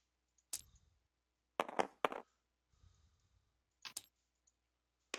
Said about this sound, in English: But I am going to roll these two dice over here. Actually, since it's a whole cartridge, I'm just going to roll 3.